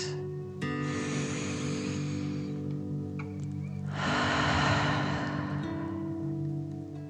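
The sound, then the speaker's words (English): Deep breathing in through the nose and out: two long, soft, airy breaths, faint and slow, over a gentle sustained musical drone. “Deep breath in and out.”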